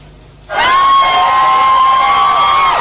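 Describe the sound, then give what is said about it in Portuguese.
A crowd cheers and applauds as Michael Jackson's family arrives. After a brief quiet start the sound swells abruptly into loud, sustained noise that holds steady to the end. “A família é recebida com aplausos.”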